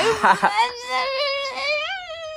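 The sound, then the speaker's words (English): A voice imitating sobbing: a few choppy, gasping bursts, then a drawn-out, wavering, high-pitched wail. “I'll probably be sobbing.”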